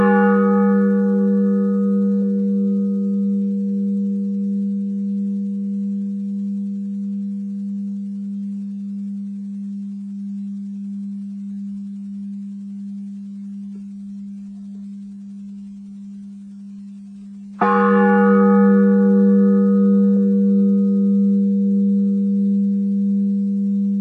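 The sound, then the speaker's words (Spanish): A deep Orthodox church bell rings with a long, sustained, humming decay that slowly fades, then is struck again near the end with a bright, metallic attack and a rich ring of overtones. “Es importante escucharlas porque la gente las escucha con toda atención, porque la incluyen, la convocan y le hablan las campanas ortodoxas.”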